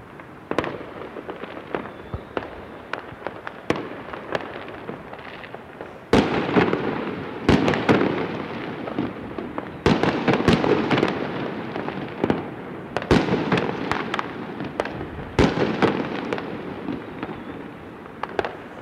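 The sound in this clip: Fireworks and firecrackers go off outdoors near a studio during a festive celebration, many sharp cracks and bangs in irregular volleys with dense crackling stretches and louder bursts throughout.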